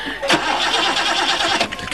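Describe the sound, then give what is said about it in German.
A car engine cranks but fails to start during a frantic escape, a steady dense mechanical whirring churning across the whole clip with brief louder bursts, and no catch into idle. “Mein Gott, Sie sehen es doch, der Motor springt nicht an.”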